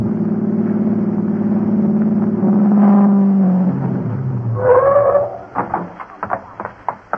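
Car engine of Larry's car, started for a race through shortcuts, droning low and steady before easing off, then giving way to a few sharper, irregular bursts of revving.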